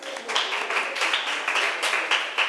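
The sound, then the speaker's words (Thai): Students in a classroom applaud group 3 after a correct answer, brisk clapping that pulses in quick, fairly regular bursts of moderate loudness. “ปรบมือให้กลุ่มที่3หน่อย”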